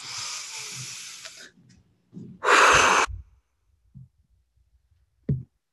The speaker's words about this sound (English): I want everyone to take a deep breath and we'll blow all those things away together.